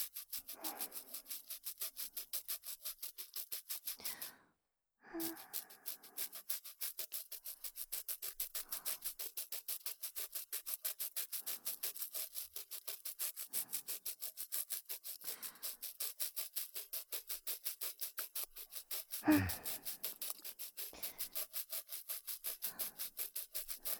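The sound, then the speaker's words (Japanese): Slow, careful polishing by rubbing and scrubbing, heard as many quick, even strokes in a steady rhythm. It stays quiet and continuous, with one short pause early on and a soft thump later. “最後でも焦らず、ゆっくりと磨いていくぞ。 ゴシゴシ。”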